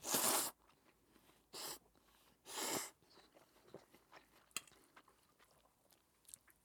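Slurping and eating of instant noodles that need no boiling or added ingredients: three loud, breathy bursts of slurping come first, followed by faint, scattered chewing and small mouth sounds.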